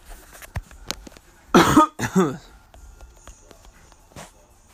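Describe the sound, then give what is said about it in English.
Two harsh coughs from a person who says they began coughing for no reason after a nap. The coughs come as a brief pair of loud bursts, with faint clicks and rustling before and after. “Excuse me. Ugh. Weather's changing, leaves are falling. I love fall. I just woke up and went to the gym and felt fine, felt great. Took a nap and woke up, started coughing for no reason.”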